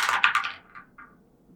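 Dice rolling on a table during a tabletop role-playing game: a quick clatter of sharp clicks that thins to a few lighter taps and then stops.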